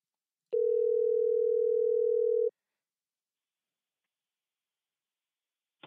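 A telephone tone sounds while calling a caller back on a call-in show: one steady, unbroken tone lasts about two seconds, then silence follows, ending with a single faint click.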